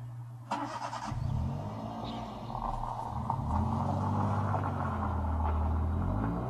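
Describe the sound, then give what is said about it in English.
Car engine starting up and driving away, a low rumbling motor that kicks in after a brief rattle and holds a steady, growling drone as it pulls off. “I really hope that wasn't him driving away.”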